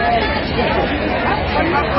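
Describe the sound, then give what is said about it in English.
A big crowd chatters while waiting for a reveal, a dense, steady babble of many overlapping voices with no single voice standing out. “The crowd is big, ready to go.”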